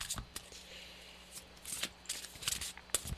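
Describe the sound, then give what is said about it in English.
A deck of cards is shuffled by hand, giving soft, irregular riffling clicks and flutters. They are faint and scattered, with a few sharper snaps toward the end. “Well, is there any card that falls out right now? It's coming. They usually fall out for me. Sometimes they'll stick to my hands, but they usually fall out.”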